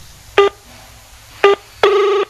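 Telephone keypad tones as a phone number is dialed: three loud electronic beeps, the first two short and evenly spaced, the third held longer, over a faint low hum.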